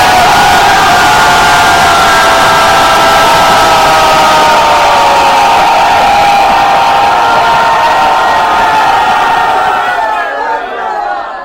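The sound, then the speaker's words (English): At a festival gathering, a crowd loudly chants "Gauranga" in one sustained, powerful shout of many voices that holds steady for about ten seconds and then drops away sharply. “Now you have to say Gauranga loud enough so the people across the street can hear.”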